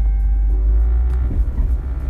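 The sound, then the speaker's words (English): A car drives along a road on a smooth ride, heard from inside as a steady low rumble with no talk. “Talking to myself here in the car. Just realizing it's been a pretty smooth ride up here.”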